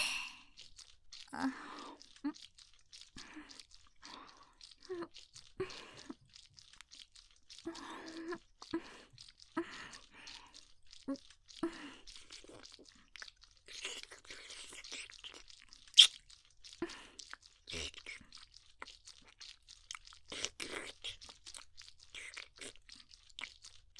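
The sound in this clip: Crunchy food being bitten and chewed produces many faint, crisp crunches in an uneven, steady rhythm, with no talking throughout.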